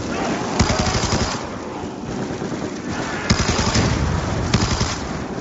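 Automatic gunfire in a video game: sustained rapid machine-gun rattling in repeated bursts, with a few sharper, louder shots standing out.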